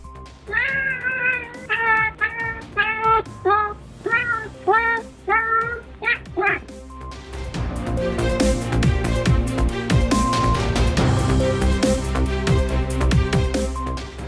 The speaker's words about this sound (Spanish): Según ellos, cada vez que el gato maúlla, hay un error en el código.